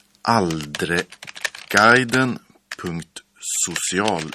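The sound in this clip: Quick, irregular key clicks of a web address being typed on a computer keyboard, heard under a person talking.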